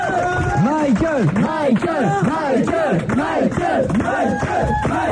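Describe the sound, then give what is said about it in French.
Fans giving a singer an ovation at a concert, a loud, continuous crowd roar with voices chanting in rising and falling swells throughout. “Derrière ses lunettes noires, alors que là, il y a toujours l'ovation, bien sûr, de ses fans qui sont venus nombreux de la France entière”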